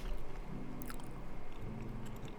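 Chewing on a mouthful of Chipotle rice during a food taste test: soft, continuous, moist mastication with a steady low rumble, fairly quiet and without talk.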